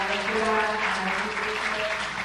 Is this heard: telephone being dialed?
no